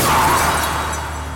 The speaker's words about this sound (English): A car brushes by you and crashes into a tree.